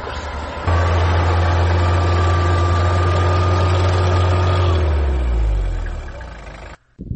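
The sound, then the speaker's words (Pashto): Vehicle engines idling in a traffic jam on a blocked road: a steady, loud, low rumble with a constant hum that holds for several seconds, then eases and drops away briefly near the end. “استاد شاته را په دغه سیمه کې لیدل کېږي چې زیات شمیر موټر په لاره کې بند پاتې دي.”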